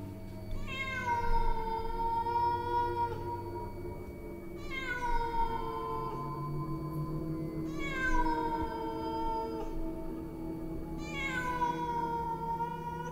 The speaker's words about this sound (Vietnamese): Trong lòng của anh ta ẵm một con mèo đen. Con mèo đang kêu lên vài tiếng